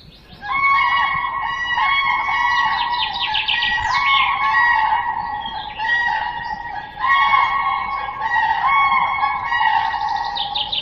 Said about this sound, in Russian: Журавли.